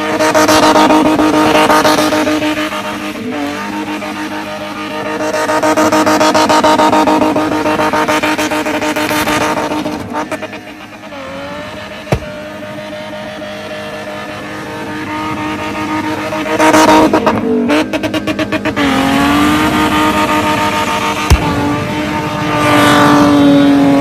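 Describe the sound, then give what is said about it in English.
A BMW 325i E30 spinning, its engine revving in repeated surges with tire squeal. The loud, tonal engine note rises and falls over many cycles, dips briefly around the middle, then climbs again. “Sales of 325i E30 BMWs have gone through the roof since this announcement because spinning is now going to be considered a legal sport.”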